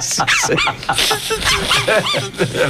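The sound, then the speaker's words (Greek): A collie with a stiff, injured hind leg barks and whimpers in a dense run of yelps, whines and short barks that rise and fall in pitch, fairly loud and nearly continuous. “Το πιο διάσημο κόλλεϊ του κόσμου επιστρέφει.”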